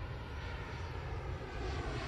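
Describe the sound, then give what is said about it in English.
Red Cross airplanes flying overhead, a steady, loud engine drone with a heavy low rumble that holds unbroken throughout, no voices. “They began to send Red Cross airplanes. And in those planes came the cash.”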